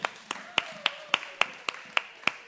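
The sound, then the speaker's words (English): Claps ring out as a group applauds during a Bible teaching session, about nine crisp, evenly spaced claps struck in a steady rhythm, each sharp and distinct over a quiet background. “Okay, awesome. Give Eric a round of applause.”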